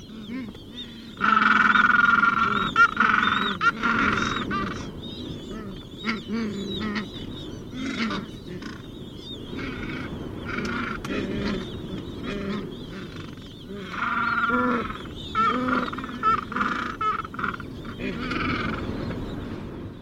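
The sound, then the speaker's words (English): A breeding penguin colony on the Falkland Islands in the South Atlantic, with many adults calling at once in a dense, overlapping cacophony of loud braying, honking cries that carry on throughout without a pause. “Here is a penguin colony on the Falkland Islands in the South Atlantic. These are Gen 2 penguins. Listen for the high-pitched peeps of chicks behind the cacophony of the adults.”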